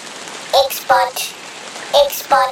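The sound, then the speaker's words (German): Rain falls in a steady, even hiss throughout. Four short voiced sounds break in over it at intervals. “X-Bot schwebt jetzt durch den Regen zum X-Raket.”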